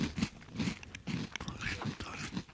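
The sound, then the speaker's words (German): Crunching bites into small crispy triangle snacks made from chickpea flour, heard as several short, brittle bursts of chewing at an uneven rhythm, fairly quiet throughout. “also ich, wollen wir mal so ein Häppchen nehmen, das sind so kleine Knusperdreiecke. Ja. Genau, die, aufs Kichererbsenmehl dann wahrscheinlich einfach oder irgendwie sowas, ne?”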